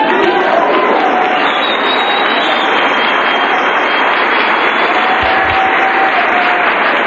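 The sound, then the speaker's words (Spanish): Applause fills a religious gathering during a sermon. A dense, steady, loud clapping roar runs unbroken for the whole stretch. “Démosle un aplauso más fuerte al Señor.”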